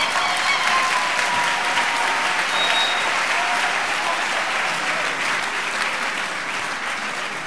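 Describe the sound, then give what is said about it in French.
A church audience applauds during a bilingual sermon, producing a full, even roar of clapping that runs for about seven seconds and eases off slightly toward the end. “Vous n'acclamez pas le Seigneur.”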